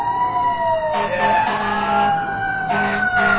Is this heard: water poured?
no